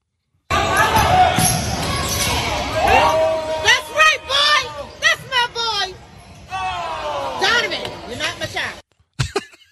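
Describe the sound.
Sounds of a basketball game in which a coach's son is playing: the ball bounces amid loud, overlapping voices and crowd chatter, and the sound cuts off abruptly near the end.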